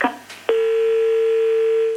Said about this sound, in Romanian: Din păcate, apelul telefonic s-a întrerupt.